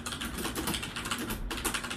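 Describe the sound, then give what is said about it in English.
Typing on a computer keyboard while entering a line of text into a word-processor document: a rapid, continuous run of many light clicking keystrokes at a fairly even pace, with no voices. “And I'll just type out a line of text.”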